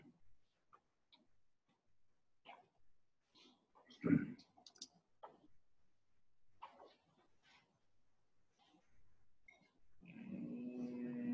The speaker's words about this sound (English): Can you click on CUE links?